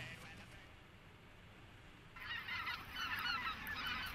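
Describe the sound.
Specklebelly geese calling in a shrill, many-voiced chorus of overlapping honks that starts after a quiet stretch of low rumble and grows louder and denser toward the end.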